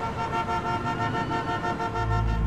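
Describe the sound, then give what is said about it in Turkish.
Car horns honk in a traffic jam on the Bosphorus Bridge in Istanbul, with sustained overlapping tones over a continuous vehicle rumble that deepens near the end. “Araçlar sıkıştı, korna sesleri arttı.”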